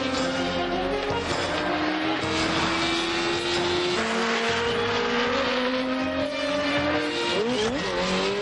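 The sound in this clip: Engine roar of vehicles racing through a curve on a mountain road during a film chase; a loud, sustained, high revving drone that climbs slightly in pitch throughout.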